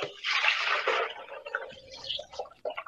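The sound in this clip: Water is poured into a coffee maker in a brief splashing stream of about a second, after which someone speaks.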